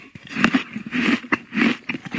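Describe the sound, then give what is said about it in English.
Biting into and chewing a fresh apple: several crisp, sharp crunches in an irregular rhythm, close and without talk. “Oh, that's an apple. It's really definitely an apple.”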